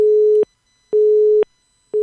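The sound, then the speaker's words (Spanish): Telephone busy signal after a dropped call: a steady, low, pure tone pulsing on and off in an even rhythm, with two full beeps and the start of a third, alone and without voices. “se nos cayó la llamada”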